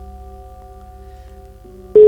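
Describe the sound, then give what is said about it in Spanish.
An electronic telephone tone signals an incoming call on a live phone line: steady humming tones at first, then an abrupt, loud, pure beep that cuts in at the end. No voices are heard. “Te está entrando una llamada”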